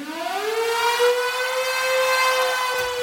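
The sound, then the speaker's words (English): A storm siren opens a live rock performance. Its wail slides upward at the start, then holds a loud, steady, rich tone. “Let's go with a song that opens with a storm siren”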